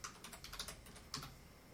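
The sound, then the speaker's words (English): Faint, rapid typing on a computer keyboard, a steady patter of key clicks with a slightly sharper cluster of strokes near the end. “I'm having to type, damn it.”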